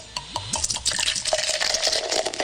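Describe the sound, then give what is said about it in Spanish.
Cold beer is poured into a glass with a bubbly, gurgling sound: a few glugs at the start settle into a fizzing, splashing stream, fairly quiet and without voices. “llenando tu vaso de cerveza fría.”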